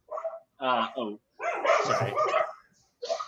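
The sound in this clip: Dogs barking and whining in a few loud bursts separated by short gaps.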